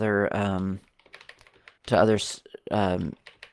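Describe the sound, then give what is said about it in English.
Computer keyboard typing, with backspace key presses, as soft clicks in the gaps between a person talking. “Now, hitting the backspace goes back to”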